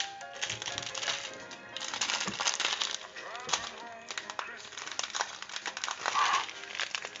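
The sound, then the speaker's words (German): A plastic bag is torn open by hand, producing a busy run of crinkling rustles and small sharp crackles that start and stop irregularly at fairly low volume. “So, ich schneide hier mal so eine Tüte auf. Die Schere ist nicht da. Dann schneide ich die wohl doch nicht auf. Dann reiße ich die jetzt auf.”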